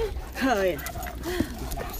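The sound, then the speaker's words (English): A dog whines and yips in a few rising, wavering cries while people talk around it. “Where are you going, dog?”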